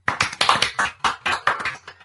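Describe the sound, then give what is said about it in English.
A small group claps for students: many sharp, distinct hand claps in a quick, slightly uneven rhythm, with clear gaps between them. “Let's give a clap to everyone who got all the words correct today.”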